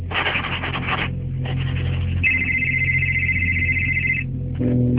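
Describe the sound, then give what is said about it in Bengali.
An electronic telephone ringtone sounds as a steady, high, sustained tone for about two seconds over a continuous low rumble, preceded by rough scraping noise. “এখন আবার কে phone করলো?”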